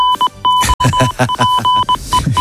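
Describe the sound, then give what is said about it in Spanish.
Goal-alert sound effect: a quick string of sharp electronic beeps at a steady pitch, interleaved with brief noisy bursts, loud and over in about two and a half seconds. “Suena el aviso de gol de tiempo de juego. Correcto, gol en la SEPI.”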